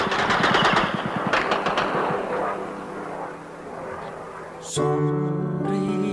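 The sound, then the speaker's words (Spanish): Machine-gun and artillery fire from a military attack on Puerto Argentino: rapid bursts of shots over a dense, rumbling roar, easing slightly before a steady harmonic tone takes over near the end. “se repite el ataque contra Puerto Argentino, con mucha mayor intensidad. Un ruido que ahora se hace más intenso.”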